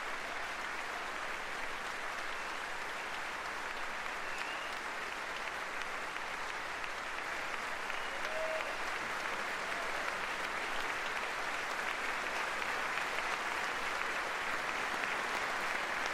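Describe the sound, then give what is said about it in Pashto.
Members of Congress applaud a World War II veteran while standing, after President Trump honours him. The dense clapping holds steady and even for the whole stretch, with no pause or swell. “او لا هم ټول ګډونوال ورته لاسونه پړخوي”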